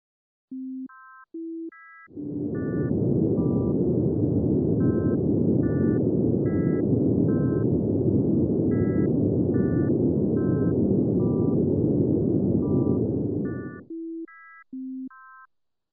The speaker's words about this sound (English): Now the pure tone notes are masked with low-pass noise. You will still hear the pitches of the complex tone.